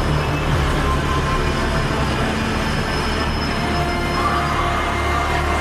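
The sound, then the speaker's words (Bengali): An underground metro train runs through Kolkata toward Dakshineswar, giving a loud, unbroken rumbling roar with a thin, high wheel squeal riding faintly above it throughout. “Kalighat, Jatindas park, Netaji ভবন, রবীন্দ্র সদন পেরিয়ে পাতাল rail ছুটল দক্ষিণেশ্বরের দিকে।”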